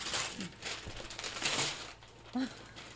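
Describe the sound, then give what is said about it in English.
Cardboard box packaging is ripped open by hand, with a few rough bursts of tearing and crinkling. A voice talks in between. “Opening the box.”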